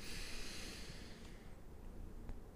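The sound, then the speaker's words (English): A deep breath drawn in during a guided breathing pause, a steady, faint, airy rush that holds for about a second and a half and then thins out, heard alone without speech. “But take a breath in”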